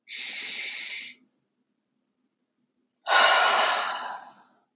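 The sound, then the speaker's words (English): A deep breath drawn in as a long, airy rush of breath noise, then near silence, then a second, louder airy breath that fades out gradually. “possibly taking a large deep breath and inhaled.”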